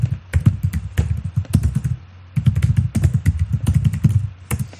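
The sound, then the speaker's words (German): Rapid clicking keystrokes of typing on a computer keyboard, many taps in quick irregular bursts with one brief pause in the middle. “Ich tippe das mal eben in die Kommentare.”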